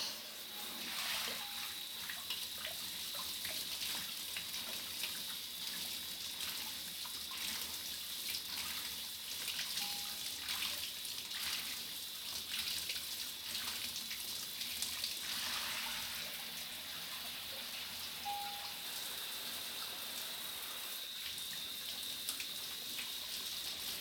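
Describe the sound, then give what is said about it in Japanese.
Water poured to rinse a person's whole body, a continuous rushing stream lasting the full clip with small surges and dips in strength, no voices. “まずは全身をお流ししますね。”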